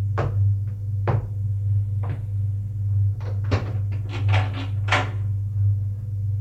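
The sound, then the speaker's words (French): A wardrobe door is opened amid a run of wooden knocks and clacks, spaced out at first and then bunching into quick clusters of sharp clicks, all over a steady low hum. “Il va ouvrir le placard penderi, où se trouvent ses vêtements.”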